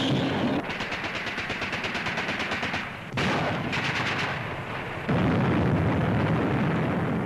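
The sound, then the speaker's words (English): Heavy artillery shells enemy bases in the battle near Dien Bien Phu in Indochina. Rapid, rhythmic bursts of blasts and gunfire come in three loud stretches, each with dense repeated reports and no voices. “Meanwhile, enemy bases were subjected to constant shelling by heavy artillery.”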